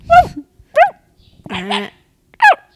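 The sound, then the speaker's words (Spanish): Dogs barking in short, high yips: three sharp yelps with quickly falling pitch, plus a longer, rougher bark between the second and third. “Ladrar los perros? A ver, pensemos. ¿No oyes ladrar los miquitos?”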